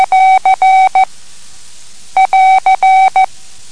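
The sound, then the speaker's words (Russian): Morse code AR, the end-of-transmission signal, is keyed twice as a steady tone. Each group runs short-long-short-long-short without a break, with a silent pause between the two groups. “Затем есть выражение окончание передачи. Звучит так. АР.”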